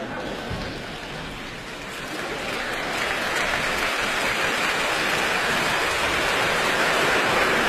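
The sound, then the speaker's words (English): Audience applause after a presto movement at a classical concert. Dense, steady clapping swells louder after the first couple of seconds and holds at full strength to the end. “for that tremendous applause that they gave her for that presto by Bach.”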